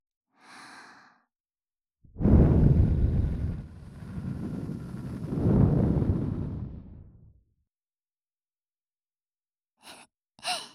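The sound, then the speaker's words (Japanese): A long breath blown close into the ear in an ASMR setting swells twice in a soft, airy rush, with fainter breathy puffs before and after it. “耳吹かれるの好きなんだ。もう一回、耳吹くよ。”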